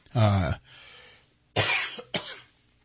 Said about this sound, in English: I know, I'm just coughing like crazy here.